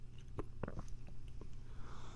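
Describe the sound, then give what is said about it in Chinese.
Crunching on a hard, orange-flavoured fruit candy: a few faint, crisp clicks and cracks over steady background hiss. “无奈之下，你只好吃了那一颗糖。”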